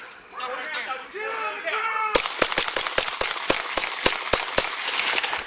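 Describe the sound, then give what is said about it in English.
Gunshots from a police officer firing at a fleeing, unarmed young man in a backyard chase in Salt Lake City: a shouting voice, then a rapid volley of many sharp, loud bangs in quick, uneven succession. “That's the officer shooting the boy 11 times.”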